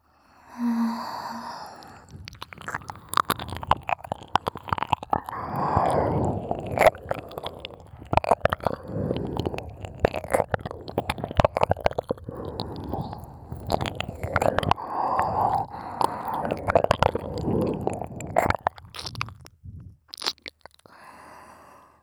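Wet, squelchy ASMR stroking sound effect with many rapid sticky clicks and squishes in an uneven, continuous rhythm at moderate volume, with no speech.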